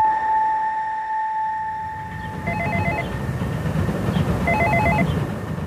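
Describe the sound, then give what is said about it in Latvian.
Intercom at a multi-storey apartment block in Pļavnieki, Riga, rings after a flat number is dialled: a steady electronic tone holds for about three seconds, then two short bursts of warbling ring tone sound over a low background rumble. “Stāvam pie kāda daudzstāvu namu pļauniekos, un domofonā esam uzspieduši dzīvokļa numuru.”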